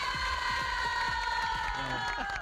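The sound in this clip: A crowd cheering and shouting to welcome a guest at eleven in the morning, a dense, continuous roar of voices that stays loud and even throughout without pause.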